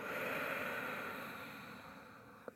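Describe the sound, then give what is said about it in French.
Deep exhale through both nostrils during a breathing exercise, a long soft airy rush of breath that fades gradually toward the end. “Par le nez, grande expire les deux narines.”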